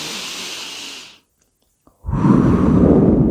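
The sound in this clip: Deep breathing in and out: a long, thin, airy breath is followed by a short silence, then a louder, lower rush of air that carries on steadily.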